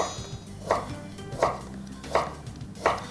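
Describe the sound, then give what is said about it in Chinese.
Knife chopping bamboo shoots that have been halved and sliced, four crisp, evenly spaced cuts hitting the board at a steady rhythm over a low background hum, with no talking. “然后笋子对半，直接切片就好咯。”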